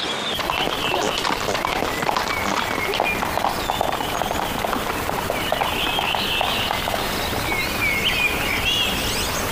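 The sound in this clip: Hooves of a horse pulling a carriage clip-clop in a steady, continuous rhythm against a dense, noisy background.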